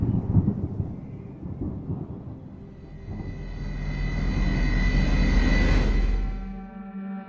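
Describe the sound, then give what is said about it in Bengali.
Thunder rolls as a heavy storm gathers in cold December weather, a low rumble that builds steadily over several seconds, peaks, and then fades away. “আকাশে মেঘ জমেছে, ডিসেম্বরের এই কনকনে শীতেও মুষলধারে ঝড় বৃষ্টি এলো বলে।”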